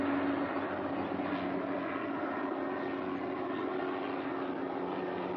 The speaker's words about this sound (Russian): К полю приближается легкий вертолет.